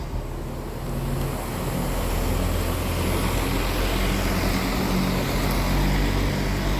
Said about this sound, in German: Das war der Bus, der keine Busnummer hat, weil hinten nichts draufsteht an.